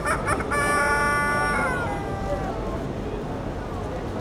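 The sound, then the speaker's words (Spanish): A rooster crows once, a bright harmonic call whose pitch drops toward the end, heard over a dense, steady background din. “Es el gallo loco.”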